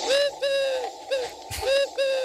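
A blackbird calls outside a window in the morning, giving five loud, repeated hollow calls at a steady mid pitch with short gaps between them and no voices.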